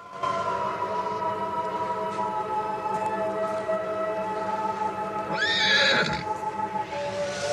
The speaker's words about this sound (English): The unicorn steps back a little, then its nostrils tremble as it whinnies.